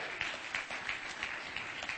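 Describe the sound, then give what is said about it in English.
A church audience claps along during a sermon. The hands strike together in a steady, evenly spaced rhythm, fairly soft, with a light patter of extra claps between the beats. “Go ahead and clap your hands.”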